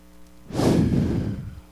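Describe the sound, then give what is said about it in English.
A church audience takes one deep collective breath during prayer, a single airy whoosh that swells after a quiet start, peaks, then slowly tapers off. “And I just want to take a moment to pray, and everybody take a deep breath. Do it two more times.”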